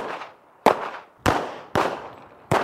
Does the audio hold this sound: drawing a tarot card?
no

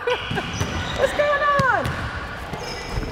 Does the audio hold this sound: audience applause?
no

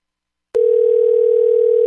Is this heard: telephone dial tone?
yes

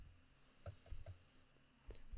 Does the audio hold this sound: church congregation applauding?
no

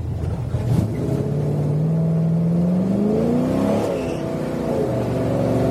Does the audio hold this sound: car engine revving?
yes

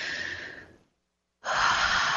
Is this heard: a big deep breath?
yes

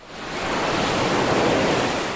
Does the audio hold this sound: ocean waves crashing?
yes

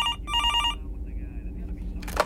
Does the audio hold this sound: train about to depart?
no

